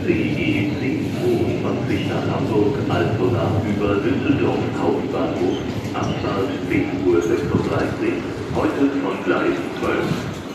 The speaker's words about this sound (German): Jetzt fangen jetzt alle zu rennen an, weil der Zug jetzt auf dem Gleis gegenüber fährt.